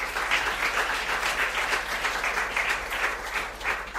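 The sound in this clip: Steady audience applause, with many hands clapping in a dense, even wash of sound that holds a constant level from start to finish.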